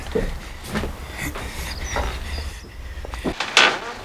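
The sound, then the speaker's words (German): A door is opened for an arriving visitor: a few soft knocks and thuds with shuffling, then a brief creak and clunk near the end. “Da hinten kommt Peter. Komm, wir gehen ihm öffnen.”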